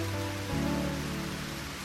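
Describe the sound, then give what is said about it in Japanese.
Rain falls on an autumn afternoon outside a high school broadcasting room as a dense, steady hiss of drops with a low rumbling undertone. It stays even and continuous throughout, with no voices. “この雨がやまんかったらどうなると思う？”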